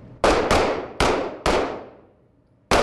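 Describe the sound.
Police recruits fire handguns on a training center shooting range: five sharp, loud gunshots, each a sudden crack with a decaying tail, irregularly spaced with a longer pause before the last.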